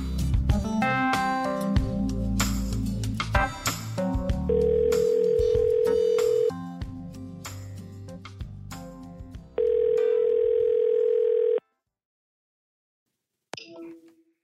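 Outgoing telephone call tones: two long, steady, single-pitch tones of moderate loudness, each about two seconds, separated by a stretch of dense, busy sound. Near-silence follows, then a brief faint sound at the very end.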